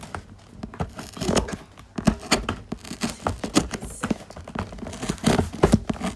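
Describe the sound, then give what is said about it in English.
Scratching words into a table, heard as irregular bursts of harsh scraping and gritty strokes of varying length, some sharp and loud, with short pauses between them. “Yeah, I just wrote fuck Ali into the table.”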